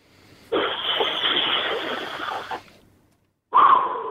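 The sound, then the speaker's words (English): A deep breath taken as a breathwork demonstration: a steady, breathy rush of air lasting about two seconds, then a short pause before another loud, sharper breath begins. “Give us your best breath”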